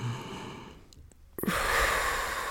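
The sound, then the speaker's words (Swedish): A deep breath exhaled through the mouth during a guided breathing exercise: a soft, quiet breathy stretch, then a louder, sustained airy rush of exhaled breath from about halfway through to the end. “Och sen släpp ut genom munnen. Så kan du en till in genom näsan. Upp i bröst.”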